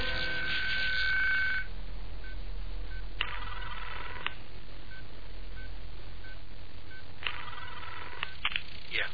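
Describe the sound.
A telephone rings in a few bursts separated by pauses, a bright electronic ring tone over a steady low hum, with no voices.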